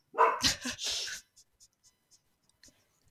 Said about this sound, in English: She can hear people moving around outside, so she has to bark.